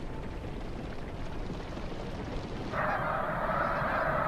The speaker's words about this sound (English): And the 5 million snow geese, who fly en masse to northern Canada, looking for a summer feast fit to feed a family.